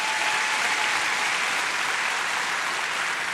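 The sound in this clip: Audience applause greeting a guest's wife: loud, dense, continuous clapping, steady throughout with no pauses or talking.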